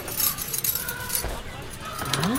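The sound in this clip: Keys jangle with bright metallic rattling that runs steadily throughout, and a voice is heard briefly near the end.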